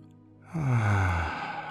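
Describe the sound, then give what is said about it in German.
A single long breath out during a guided breathing exercise: quiet at first, then a breathy, lightly voiced exhale that swells and slowly fades away. “Atme nun 8 Zähler aus.”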